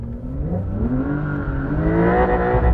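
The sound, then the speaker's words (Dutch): A Porsche 911 Dakar engine revs for a few seconds in a rumbling, moderately loud drone. Its tone climbs gradually in pitch as it accelerates, with no voices over it. “Uiteraard gaan we in een Porsche rijden.”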